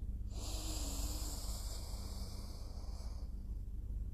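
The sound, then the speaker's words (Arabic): A deep inhalation during a guided breathing meditation: one soft, airy in-breath lasting about three seconds, faint and steady, with no talk over it. “شهيق”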